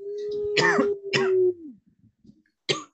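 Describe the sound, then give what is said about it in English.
A person coughs in a few harsh, throaty bursts, two close together and then one more after a brief pause. “see, right now I'm coughing.”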